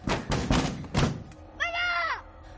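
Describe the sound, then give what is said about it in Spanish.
A wooden cabin door is shut in a horror film with a few dull, heavy thuds in quick succession. “Cierra la puerta.”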